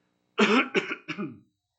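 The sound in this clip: Three quick, harsh coughs from a person with acid reflux come in close succession, the first strongest and the last two rougher and weaker, alone with silence before and after.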